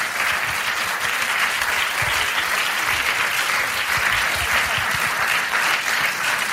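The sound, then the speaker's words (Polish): Loud, dense audience applause at an evening ceremony honouring finalists, a steady unbroken wash of clapping that holds for the whole stretch with no voices on top. “Jeszcze raz wielkie brawa, proszę Państwa.”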